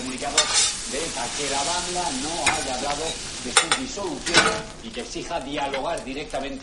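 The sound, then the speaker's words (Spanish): Red mullet sizzles in a frying pan, a steady crackling hiss broken by several sharp clinks and scrapes of stirring and cookware. “Una mujer fríe salmonetes.”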